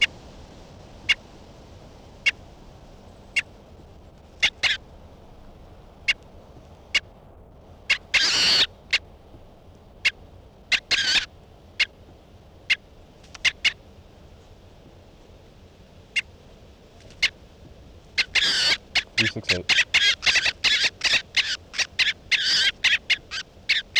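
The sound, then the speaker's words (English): Sharp, high bird calls from a bird being handled: sparse single chirps at first, a few louder rasping bursts, then a dense rapid run of calls toward the end. “this is bird 368 being handled.”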